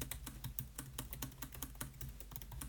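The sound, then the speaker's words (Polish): Fast typing on a laptop keyboard, captured as a binaural recording. Many quick, crisp key clicks follow one another in an uneven rhythm, faint and with no voices. “Klawiatura brzmi tak, kiedy na niej szybko piszemy.”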